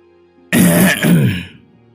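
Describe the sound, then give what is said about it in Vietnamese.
Throat clearing: a rough, harsh burst in two quick connected pushes lasting about a second, loud and alone with no speech, followed by quiet. “liền nghe tiếng hắng giọng”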